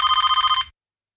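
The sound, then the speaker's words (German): A telephone bell ringing: one rapid burst of about nine metallic strikes in an even trill, then it stops abruptly into silence. “Als ich nach Hause kam, klingelte das Telefon. 2:10. Ich ließ es klingeln.”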